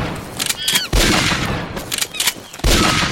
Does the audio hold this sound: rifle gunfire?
yes